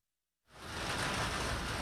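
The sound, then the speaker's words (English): Rain pelting the sidewalk along a street in Hollis, Queens, starting abruptly after a brief silence and settling into a dense, steady hiss that holds at an even loudness. “Rain is pelting the sidewalk along 183rd Street in Hollis, Queens.”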